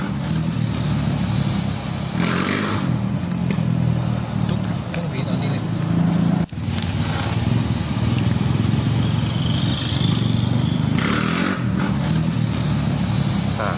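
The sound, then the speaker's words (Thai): A motorcycle engine revs hard while the rider pulls a wheelie. The loud, steady engine drone runs the whole time, broken by one brief dip partway through. “คลิปนี้เหมือนขี่มอเตอร์ไซค์แล้วก็ยกล้อ”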